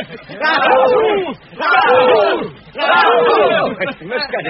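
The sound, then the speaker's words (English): A group of dwarves cheers for their burglar in three loud, full-throated bursts of shouting, each rising and falling, with short pauses between. “Well done, Mr. Baggins. A cheer for our burglar.”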